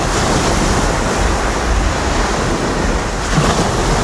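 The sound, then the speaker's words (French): Sea waves wash onto a beach in a nature reserve where litter is being collected. The surf makes a loud, continuous roar that stays steady for the whole stretch. “Le bruit de la mer et du ramassage donc des déchets sur la plage de la réserve de Beauguillot”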